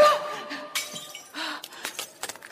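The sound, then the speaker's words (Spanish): A wine glass breaking as someone steps on it: a few sharp, bright crunches and crackles of shattering glass with scattered tinkling clinks, moderately loud and uneven in rhythm. “Ella pisa una copa, se lastima los pies.”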